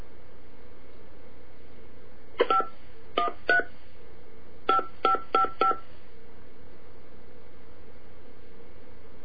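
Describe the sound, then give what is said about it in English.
Telephone keypad dialing tones: a string of short, bright beeps in two quick clusters, separated by a brief pause, over a steady background hiss. “Hang on, let me try the dial number.”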